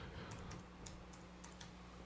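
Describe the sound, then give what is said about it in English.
Keys on a computer keyboard are pressed to type a Command-F shortcut. The key clicks are very faint, light and quick, heard alone over a low steady hiss. “hit the Command and F key on your keyboard and look for the word George Best.”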